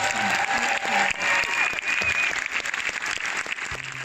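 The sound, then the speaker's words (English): An audience applauds a panel of actors in a dense, loud, sustained burst of clapping with a few voices mixed in. “And give it up for this amazing panel of actors.”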